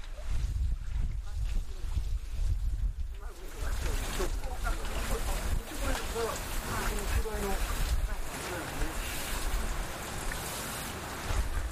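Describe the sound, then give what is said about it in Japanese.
Irregular water splashing from several birds bathing and flapping their wings in a pool, a busy, rushing spatter under a person talking. “今水跳ねの音です。バシャバシャプールで泳いでます。”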